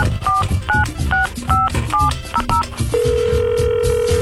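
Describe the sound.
Telephone keypad tones sound as a number is dialled to call a prize winner, a quick run of about seven two-tone beeps, followed by a steady, unbroken ringing tone.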